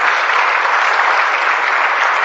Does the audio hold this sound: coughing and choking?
no

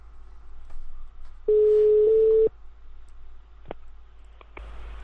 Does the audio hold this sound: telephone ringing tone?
yes

